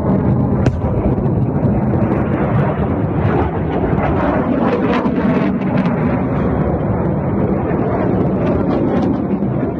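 Three rocket launcher batteries fire on a military base with a continuous, loud, dense roar that goes on without a break. A sharp crack stands out near the start.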